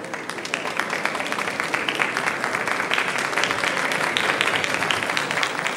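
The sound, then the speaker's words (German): Applause from guests at a state reception, greeting Erich Honecker, Willi Stoph and Horst Sindermann as they enter the hall. A dense, steady wash of many hands clapping continues evenly throughout. “Der Beifall der Gäste grüßt nun Erich Honecker, Willi Stoph und Horst Sindermann, die mit ihren Gattinnen jetzt den Saal betreten”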